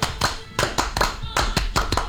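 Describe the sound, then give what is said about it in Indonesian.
Scout clap (Tepuk Pramuka): quick rhythmic hand clapping in a patterned sequence of short, sharp bursts with brief gaps, loud and clear. “Salam Pramuka. Salam. Tepuk Pramuka.”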